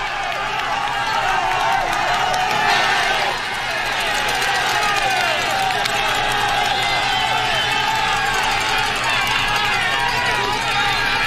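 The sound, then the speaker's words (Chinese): Roadside fans cheer and urge on riders during a cycling race, near the top of a steep HC-category climb. The cheering is a sustained, loud roar of crowd noise with whoops and some clapping, steady and unbroken for about eleven seconds. “赛道两边车迷们是不停地给选手们加油鼓劲儿啊”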